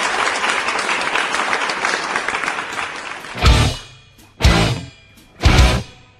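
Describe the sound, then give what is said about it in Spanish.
Applause, a steady patter of many clapping hands for a few seconds, then three short, louder noise bursts separated by brief silences. “desde Radio Comunitaria Cuyún, los saludamos y los aplaudimos”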